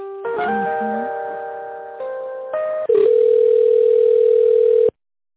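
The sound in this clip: Telephone line tones play while a business call is transferred to a specialist: steady electronic tones shift pitch a few times, then a louder buzzing tone holds for about two seconds and cuts off abruptly.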